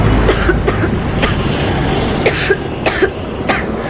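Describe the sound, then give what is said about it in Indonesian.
A woman coughs again and again, many short, dry bursts from a cough that has lingered for a week, spread unevenly over a steady low rumbling background. “Batuk ibu cuma numpang lewat.”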